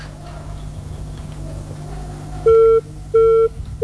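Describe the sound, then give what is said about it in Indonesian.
Disconnected-call tone on a phone line during a studio call-in: two steady, mid-pitched beeps with short gaps between them, and a third beginning at the very end, over a low constant hum. “Terputus ternyata.”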